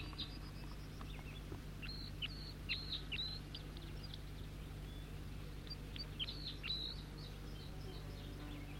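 Faint bird song with many short, high chirps in loose bursts, heard over a steady low hum and a soft insect-like buzz.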